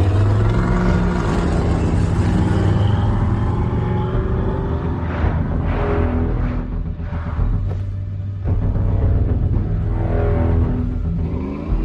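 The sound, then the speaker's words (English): A car engine revving hard as it accelerates, a loud, continuous roar that runs throughout with its tone shifting up and down and no talk over it. “Floor it. Put your foot on the gas. Do it now.”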